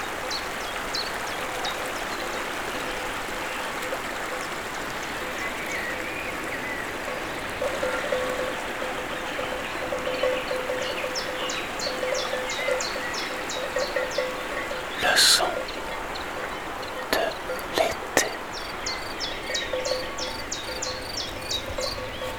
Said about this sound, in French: Les oiseaux, la sonnaille, la verdure, le ruisseau et la cascade.